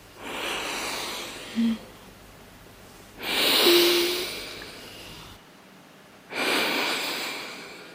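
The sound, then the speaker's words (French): Deep breathing as a person inhales the scent of precious wood: three long, breathy draws of air, each swelling and fading, separated by short quiet gaps. “Je peux respirer à présent ? Et je vais maintenant respirer. Écoutez.”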